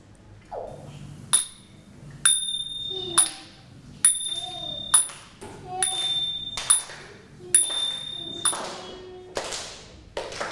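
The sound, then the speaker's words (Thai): Ching, small Thai hand cymbals, struck many times at fairly regular intervals. Each strike is a bright, high metallic ping; some are damped short and others ring on longer, with quiet gaps between. “เสียงตีฉิงนั่นเองนะคะเสียงยังไงคะเสียงฉิง”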